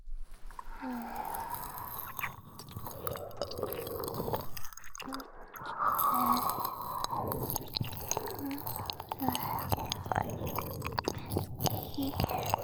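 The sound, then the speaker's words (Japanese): Faint ear-licking mouth sounds: soft wet squishes, smacks and light clicks come and go irregularly, with hints of breathy whispering in between. “私も耳なめ再開。”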